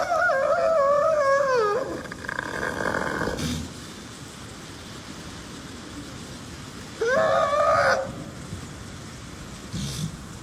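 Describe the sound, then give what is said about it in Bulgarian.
Seal calling: two drawn-out, harmonic moaning calls separated by a quieter stretch, the first sliding downward in pitch, with a few short noisy bursts between them. “Това е тюлен и този звук дойде при нас”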